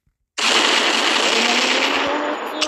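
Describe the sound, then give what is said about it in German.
Police gunfire aimed at a group of people: a sudden, loud burst of rapid shooting that starts abruptly after a brief silence and holds as a dense, continuous roar to the end. “Oh mein Gott, oh mein Gott, Leute. Die schießen auf uns.”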